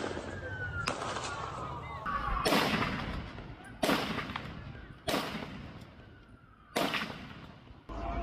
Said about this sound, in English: 60 seconds after he was disarmed, the man in white trousers is back on the bridge and firing with a different weapon.